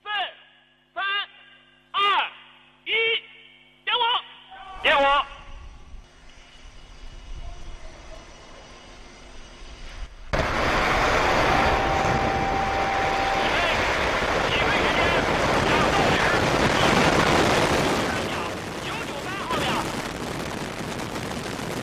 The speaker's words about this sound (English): There we go, the successful launch of the Long March CZ-5 rocket from the Wenchang Satellite Launch Center in Hainan.